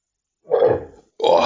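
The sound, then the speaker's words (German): A loud, low, guttural belch from someone complaining of a stomach bug, coming in two bursts separated by a short pause, the second cut off at the end, with no talk around it. “Rülpser.”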